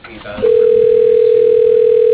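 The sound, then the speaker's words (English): An automated telephone system dials an extension: a steady mid-pitched tone begins after a short faint murmur and holds unbroken to the end. “Dialing Becky Gould, extension 102.”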